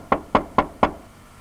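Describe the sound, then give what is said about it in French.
Four sharp knocks on a door, evenly spaced and of equal strength, followed by quiet. “Arrivé devant la porte, il frappa.”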